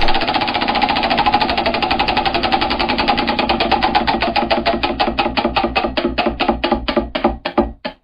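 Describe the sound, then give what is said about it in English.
A prize wheel spins with a rapid stream of ratcheting clicks that gradually slow, the gaps between ticks widening until the wheel clicks to a stop at the end. “It's time. Wheel spinning.”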